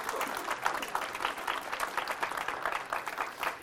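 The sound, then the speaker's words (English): Audience applause welcoming a new full-time member at a ministry gathering, a steady crackle of many hands clapping at moderate level, with no voices over it. “And I hope maybe you'll take a moment to put your hands together and just welcome him.”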